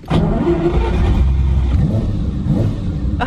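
A Ferrari 250 SWB engine revs loud and continuous, with a deep growl and a couple of short climbs in pitch as the throttle is blipped.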